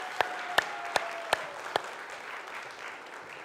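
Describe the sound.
An audience applauds a volunteer: five sharp, separate claps stand out over a soft, steady wash of crowd noise that continues after the claps stop.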